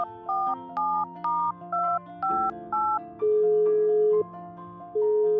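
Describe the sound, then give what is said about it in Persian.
Telephone dialling tones and then call ringing: six short, evenly spaced beeps of shifting pitch, followed by two longer, steadier ringing tones. “آره زنگ بزنم ببینم چی میتونم بگم بهش.”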